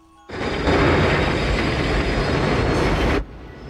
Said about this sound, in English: Riding on the train, Dave looks at his fellow passengers as the train is drawn into the same tunnel he saw when he was dead.